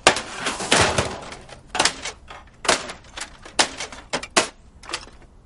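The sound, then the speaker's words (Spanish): A baseball bat smashes a computer in a drama scene: many sharp, loud cracks and clattering crashes land in an irregular, fast series over about five seconds. “levanta el bate y golpea el ordenador.”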